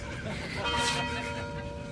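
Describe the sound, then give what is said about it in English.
University tower chimes ring out in sustained, overlapping bell tones that swell briefly toward the middle and then ring on steadily over a low background. “The University of Detroit Mercy Tower Chimes ring in another session of Ask the Professor”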